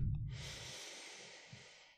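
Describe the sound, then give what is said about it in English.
One slow, deep breath is drawn in during a guided breathing exercise, a steady airy hiss of about two seconds. Quiet and alone. “Let's just begin by taking a deep breath in”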